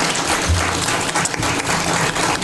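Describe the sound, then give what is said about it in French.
Audience applause for an honored guest at a book festival round-table, a dense, loud and steady patter of many hands clapping that continues without a break. “Et vous pouvez applaudir Raphaël Nedilko.”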